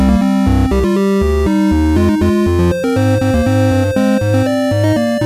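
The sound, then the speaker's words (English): A synthesizer arrangement played without amplitude envelopes, so every note switches on and off abruptly at full volume. Loud, steady layered chords and bass notes change in blocky steps, with no fade-in or decay. “If I just play my arrangement without any envelopes on the amplitude, in other words, the volume of each note, it sounds like this.”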